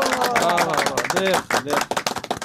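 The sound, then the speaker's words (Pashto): A studio audience on a Pashto quiz show claps for a correct answer. A voice speaks first, then quick, sharp claps break out near the end and continue to the close. “چک چک ورته وهئ.”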